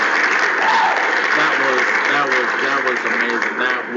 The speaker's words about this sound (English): So definitely shout out to both teams. Let me give them that round of applause again.